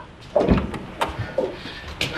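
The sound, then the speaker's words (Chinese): A door being opened as visitors arrive at a home, heard as a few short clunks and rattles at moderate loudness, with no talking. “我开门。”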